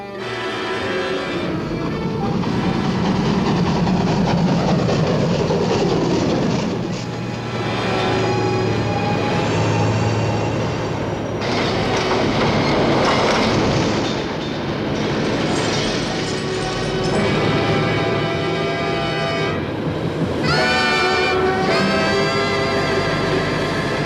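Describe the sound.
A train starts off behind a tunnel in fog and runs on, struggling to gather speed. A loud, continuous rumble of wheels on rails carries steady clickety-clack and faint squeals, swelling and dipping slightly throughout.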